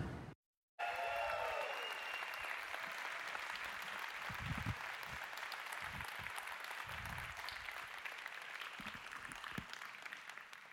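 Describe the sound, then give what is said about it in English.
A church audience applauds to welcome a guest pastor, steady faint clapping that continues for about ten seconds with a few louder claps standing out. “Would you please put your hands together and give him a Harvest welcome right now”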